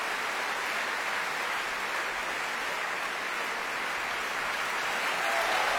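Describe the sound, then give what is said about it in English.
An opera audience gives dense, continuous applause at a curtain call, a steady, even wash of many hands clapping that holds at the same level throughout. “And now there's cheers for Mariusz Kwiecień, singing Marcello, applauding the orchestra and gesturing to his colleagues on stage.”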